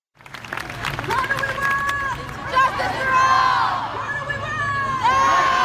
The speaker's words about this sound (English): That's the sound of a September protest over the possible end of the DACA program.